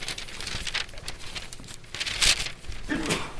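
Thin Bible pages rustle and crinkle as they are turned, a continuous papery shuffling with one sharper crackling burst partway through.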